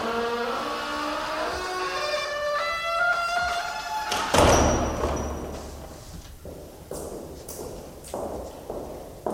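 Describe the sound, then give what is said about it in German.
A door being shut on arrival at a castle, with rain threatening: one heavy slamming thud stands out midway, followed by a few lighter knocks and taps. “Warte, ich hab die Tür nicht zugemacht, als wir ins Schloss kamen. Nachher regnet's noch rein.”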